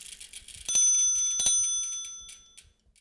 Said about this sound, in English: Let's hear that funky hub and spoke Sonic ID and get moving.